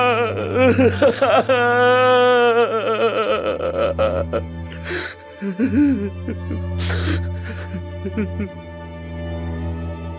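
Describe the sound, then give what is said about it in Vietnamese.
A man crying and sobbing uncontrollably in grief over his mother's death, as Lunar New Year approaches in a small house. Broken, wavering sobs alternate with gasping breaths, loud and continuous, with a few sharper catches of the voice. “Tiếng khóc bật ra, nghẹn ngào không kìm được nữa. Anh khóc như một đứa trẻ”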